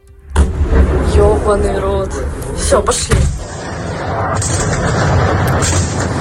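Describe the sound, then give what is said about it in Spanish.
Heavy booming blasts from bombs falling on Kyiv during an overnight missile attack: a sudden loud blast, then a few sharp booms, over constant rumbling noise with voices. “Así caían las bombas esta madrugada sobre Kiev.”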